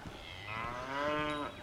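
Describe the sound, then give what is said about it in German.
Young cattle lowing on a pasture among blooming meadows: one drawn-out, harmonic moo that swells and holds, moderately loud over a soft outdoor background, with no voices. “Guck mal, da oben sind Rinder. Jungrinder.”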